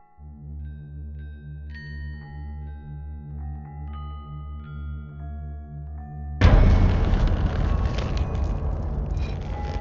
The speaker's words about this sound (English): it's a straight up slasher. So we're going to uh, go ahead and roll the trailer.